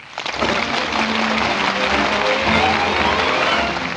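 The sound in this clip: Applause from a radio studio audience during a 1950 broadcast, a dense and steady wash of clapping that holds at an even loudness for about four seconds, with some tonal sound mixed in.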